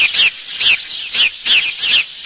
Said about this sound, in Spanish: incluso uno de los pájaros más comunes del mundo. Si usted va a algún centro de algún pueblo, lo podrá encontrar y identificar fácilmente. Está además muy acostumbrada a vivir cerca de los humanos